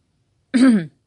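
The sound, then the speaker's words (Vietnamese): A single short, dry cough, like a man clearing his throat, sounds once on its own against silence. “Hắn ho khan một tiếng.”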